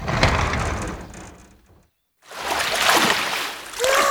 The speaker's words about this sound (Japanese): わあ、いいお湯、温泉成分が体に染み渡ります。